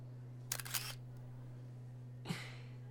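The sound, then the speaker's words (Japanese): Camera shutter clicking as a commemorative photo is taken: a quick cluster of clicks, then a single sharp click, over a steady low hum. “記念写真だよ。今日は君と彼氏の婚約記念日になるだろうからいい思い出になるね。”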